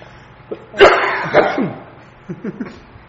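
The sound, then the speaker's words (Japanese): Coughing from a person with a persistent cough: two sharp, harsh bursts followed by a few fainter, shorter ones. “ごめんなさいね、 咳 がガンでちょっと咳が止まらない”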